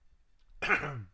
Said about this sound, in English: Let me get a drink and clear this throat. A rough morning.